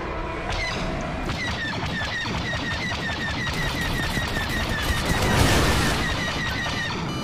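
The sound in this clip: Rapid gunfire crackles in dense, continuous bursts, a steady barrage that swells briefly louder near the end before settling back.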